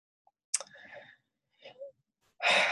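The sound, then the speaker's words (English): A deep breath taken and let out, heard as a few airy rushes of air, the final exhale the loudest and broadest, with no speech. “Yes, I'm taking a deep breath.”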